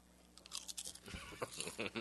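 Crunching of Consommé Punch potato chips: a quick run of crisp, brittle crunches and chewing, quiet and dry, with no talking.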